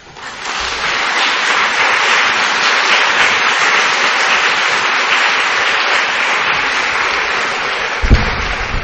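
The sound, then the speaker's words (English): Audience applause welcomes a speaker to the stage at an evening lecture on palliative care. The dense clapping swells quickly, holds at a steady loud level for several seconds, and ends with a brief sharper burst. “And now, please welcome André Picard.”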